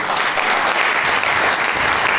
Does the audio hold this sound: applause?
yes